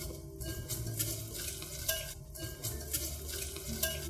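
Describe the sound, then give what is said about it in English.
Sugars being whisked into a batter in a large mixing bowl make a steady run of rhythmic swishing and scraping strokes over a low rumble, with no voices. “And then add in all our sugars that we had set out earlier. Whisking until smooth.”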